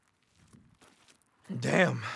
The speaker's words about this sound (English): How are you walking so fast? Sorry, I'll slow down.